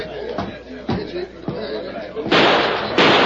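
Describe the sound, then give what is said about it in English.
A gunshot is fired through a window while a sheriff holds back a crowd. A few sharp bangs cut through talking voices, followed by louder, sustained bursts of harsh noise. “Did you see that? Deke shot at the mess, man. Shot through the window.”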